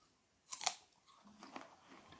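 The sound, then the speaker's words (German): A crisp crunch as someone bites into an apple, a sharp double snap early on followed by quieter, softer chewing noises. “Falls ihr euch wundert, was ich gerade esse, sind Äpfel.”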